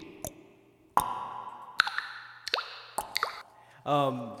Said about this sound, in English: Does it sound like I'm in a cave? It sounds it like, does. Yeah, we're all in a cave.